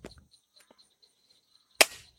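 A salt-shooting gun fires once with a single loud, sharp crack and a short rattling decay. Several faint clicks and ticks of handling come before it.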